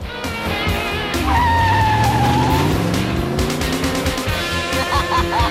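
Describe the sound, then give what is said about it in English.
Cars racing each other down a road, engines roaring loudly and continuously. A climbing engine note and a brief high tire squeal stand out over the steady motor noise. “They race along the road.”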